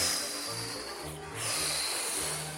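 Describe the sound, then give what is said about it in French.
Forceful breathy blowing as a wolf blows on a wooden house in a children's tale, a continuous airy hiss that dips briefly midway and then swells again, with low musical tones underneath. “Le loup souffle.”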